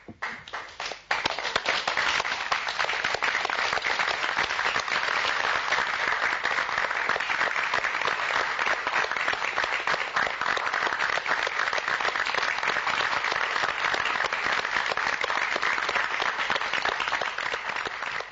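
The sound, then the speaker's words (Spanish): Sustained audience applause for a theatre play: after a sharp onset, dense, even clapping runs loud and steady throughout, with no talk over it. “Veamos, escuchemos la reacción del público.”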